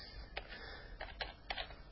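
Keystrokes on a computer keyboard while text is entered into a web form: a few quiet, sharp clicks at irregular intervals over a faint low background hum.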